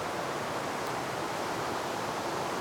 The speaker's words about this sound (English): the river just underneath me is gushing quite wildly